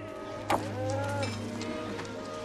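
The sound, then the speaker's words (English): Calves being driven out of a dusty corral by ranch hands, with faint, brief lowing calls over a steady low hum and soft background noise. “Joe and his brothers drive the calves out of the corral, raising yet more dust.”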